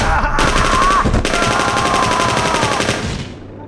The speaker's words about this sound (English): Withers, shoot! Halt! Halt die Klappe! Withers! Sag mir, was ich tun soll! Now! Schieß sie!